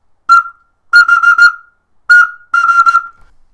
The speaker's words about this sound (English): I actually have my little Domovskaya Igrushka, so kind of my whistle toy here, and this is what it sounds like.